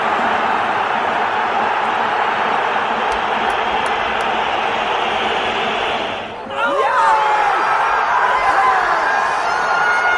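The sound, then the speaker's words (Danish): HSV football fans roar in the stadium in Hamburg during a match against Hertha. A dense, steady wall of crowd noise fills the whole stretch, dipping briefly near the middle before swelling back. “Det gjorde dog ikke det store ved decibelniveauet og entusiasmen hos HSV-fansen, som man kan høre her i baggrunden, gav den fuld gas i alle 90 minutter.”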